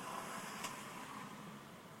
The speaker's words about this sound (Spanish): he parado un momentito de hablar porque estaba en una curva muy muy cerrada y estaba dejando que pasen los carros